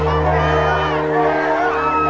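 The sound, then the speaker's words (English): A crowd of more than 23,000 cheers at a McCain and Sarah Palin rally in Northern Virginia, a loud, steady roar of massed voices and whoops with no break. “In Northern Virginia today, McCain and Sarah Palin drew their biggest crowd yet, more than 23,000. And there was no doubt who many of them came to see.”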